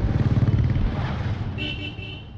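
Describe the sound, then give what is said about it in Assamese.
A motorcycle engine putt-putts with a rhythmic, low, thumping beat that is strongest at the start and then eases into a steadier rumble, with a thin high tone joining near the end. “গোৰ এটা মাৰি পিঠিত বহিলেই দৌৰ মাৰে একদম ভট ভট ভট ভট ভট ভট শব্দ কৰি।”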